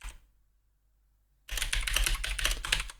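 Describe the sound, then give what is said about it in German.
Computer keyboard typing as a note is added to a list: about a second and a half of near silence, then a dense, steady run of rapid clicking keystrokes that continues to the end. “Ich muss hier noch was auf meine schlaue Liste schreiben.”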